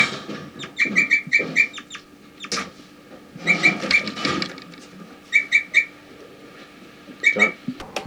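A bird gives flight calls, short high whistled chirps in quick clusters of three to five notes. The clusters are separated by pauses and by patches of rougher, breathy noise.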